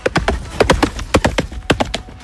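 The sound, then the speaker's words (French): Horse hooves clip-clop as the animal gallops: many sharp, hard hoof strikes in an uneven, driving rhythm, loud and alone, with no voices. “c'est le bruit d'un cheval qui court. Eh ben, voilà, cheval au galop”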